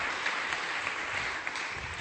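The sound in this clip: A brief round of applause for a volunteer named Andy at a church talk, a soft, steady patter of clapping that holds at an even level for a couple of seconds.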